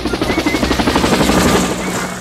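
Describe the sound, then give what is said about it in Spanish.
Helicopter rotor chop from aircraft bringing people in, a steady rhythmic thudding of evenly spaced pulses over a broad engine roar, loud and continuous throughout. “Aquí está la gente llegando en helicóptero.”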